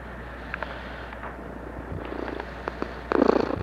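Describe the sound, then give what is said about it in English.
A cat purring, a low, steady rumbling hum running throughout against a faint noisy background, with a few soft clicks and a slightly louder rough stretch near the end. “There's the cat checking in.”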